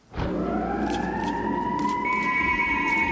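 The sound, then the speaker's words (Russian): An American siren wails, its tone sweeping quickly upward at the start and then holding a loud, steady, sustained howl to the end with no voices. “воет американская сирена и гаснет свет”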